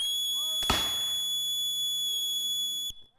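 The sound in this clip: Peninsular War reenactors of the 60th Rifles fire a rifle volley: one sharp, crackling blast, then a faint second report near the end, with a steady high tone running underneath.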